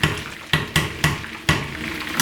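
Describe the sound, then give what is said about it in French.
A simmering stew with peanut paste is stirred in an uncovered pot. Several wet, sloshing strokes recur in an uneven rhythm over a soft, continuous bubbling hiss. “Maintenant, je peux ajouter la cacahuète. Je remue le tout. Après, je laisse mijoter un bon moment.”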